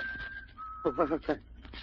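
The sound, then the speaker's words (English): Strange bird-like whistling, a thin steady high tone holding for most of a second and then dropping slightly in pitch, faint and accompanied by a man's voice speaking over the latter half. “Sounds like a bird, maybe. Birds don't whistle like that.”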